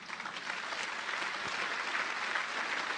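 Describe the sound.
A church audience applauds after a healing prayer, with dense, even clapping that stays at a constant moderate level for the whole few seconds.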